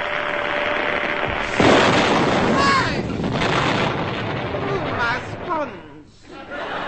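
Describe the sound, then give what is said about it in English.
A comic bang from a novelty Super Junior candle flash gun with a cardboard built-in trigger, fired for a group photo: one sudden loud blast cutting through a noisy bed of voices and chatter. “Super Junior candle flash gun with cardboard built-in trigger ID. Say cheese.”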